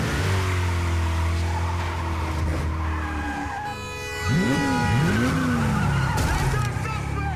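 A car's engine revs and its tires squeal in a skid during a movie chase. The car handles loosely, with a sloppy back end. A steady engine roar dips near the middle, then a couple of arcing tire squeals follow.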